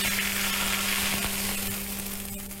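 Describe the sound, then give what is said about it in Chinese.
Hot rapeseed oil heated with red Sichuan peppercorns is poured over a dish of kidney and chives and sizzles: a fine, crackling hiss that runs continuously and fades slightly toward the end, with no talking. “然后我们重新烧热100克菜籽油，油温八成热之后加入适量的红花椒，然后泼在上面即可。”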